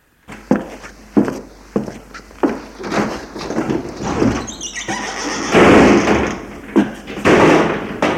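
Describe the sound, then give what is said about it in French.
Window shutters being closed: a series of sharp knocks and thuds, a brief squeal partway through, then a rougher scraping burst followed by a few more knocks. “Sa mère le voit et va fermer les volets.”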